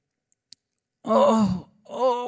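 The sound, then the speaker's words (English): A man's voice imitates another man groaning with two drawn-out moans, the first longer and the second shorter, after a moment of near silence. “He just started groaning. He's like, oh.”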